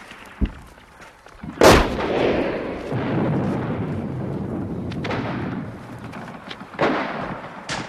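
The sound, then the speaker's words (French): A grenade blast and gunfire in a war scene at the Spanish Civil War front. One loud, sharp explosion with a long rumbling tail is set among a few further sharp gunshot-like cracks, and no voices are heard. “Attention, grenade, on recule. Elle n'était pas si loin celle-là.”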